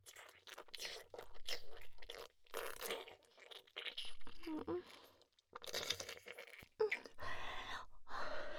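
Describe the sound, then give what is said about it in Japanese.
Someone chewing lemon, with loud crunchy, wet bites and munching in long bursts broken by a few short pauses. “レモン、おいしい。いっぱい食べさせて。”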